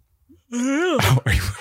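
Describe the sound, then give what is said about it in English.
A person yawning: a drawn-out voiced groan that swells and bends in pitch, then breaks into breathy, noisy exhalations, loud and alone. “the yawning that you're going through right now is extremely distracting. You've only yawned.”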